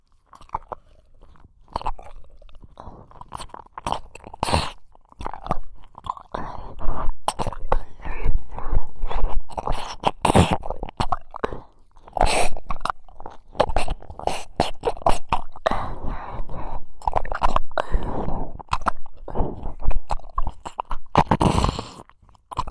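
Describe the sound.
Wet tongue licking and mouth sounds against the ears: many quick smacks, clicks and slurps in a dense, irregular stream, moderately loud, with no talk.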